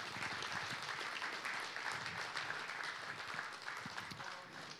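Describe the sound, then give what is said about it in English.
Audience applause from a church audience thanking its ministry volunteers: steady, dense clapping that holds at an even level throughout and eases slightly at the very end. “Come on. Give them a hand, guys.”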